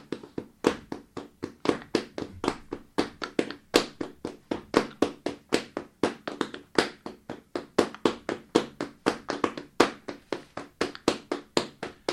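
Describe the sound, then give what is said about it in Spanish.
Flamenco bulería palmas at a live flamenco class: many sharp, rhythmic hand claps in a steady driving pattern with regular accented beats, heard alone without voices. “Vamos a hacer las palmas de bulería. Es un estilo muy difícil, pero ellos tienen su ritmo.”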